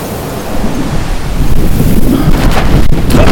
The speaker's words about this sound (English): A strong wind topples the woman's easel and sends the umbrella whirling through the air towards Jiro.